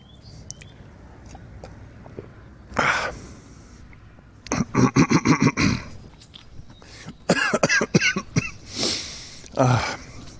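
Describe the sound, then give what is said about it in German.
Coughing from someone who has choked on something swallowed the wrong way: scattered throat clearing, then two dense fits of many rapid, harsh coughs, with quieter sniffs and breaths between them. “Entschuldigung, jetzt habe ich mich verschluckt.”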